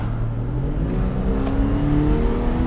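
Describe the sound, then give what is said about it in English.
A lawnmower engine drones loudly and steadily, heard from a car driving with its windows cracked open, a continuous tonal hum with layered harmonics and no break. “Sorry, that was a lawnmower.”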